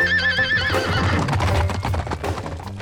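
A horse gives a wavering, high neigh, then hooves clip-clop in a quick, busy rhythm that carries on loudly to the end.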